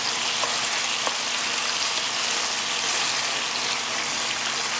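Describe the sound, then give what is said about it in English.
Chicken browning in a pan gives off a steady, bright frying sizzle, a continuous crackling hiss with no talk and no change in level. “until you see that the chicken is a little bit browned, just like so.”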